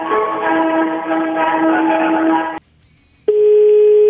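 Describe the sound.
A telephone line to the Italian Senate rings with no answer: a long, steady ringback tone plays, cuts to a brief silence, then a second tone begins and sounds alone at a loud level.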